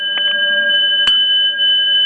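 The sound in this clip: A bell rung, with a bright, sustained metallic ringing tone, a few soft strikes early on and one sharper hit partway through.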